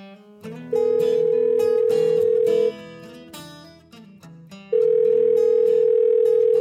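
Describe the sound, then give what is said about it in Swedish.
Ringback tone of an outgoing telephone call: a steady mid-pitched tone sounds twice, each lasting about two seconds with a pause between, over a continuous musical background. “Men nu slår vi en pling till Peter och låter Peter berätta mer.”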